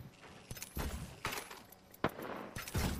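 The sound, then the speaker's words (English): Gunfire in the video game Apex Legends: a few sharp, crackling shots burst out at irregular moments over a low game background, with some bursts louder than others. “Shots on me. Getting shot at.”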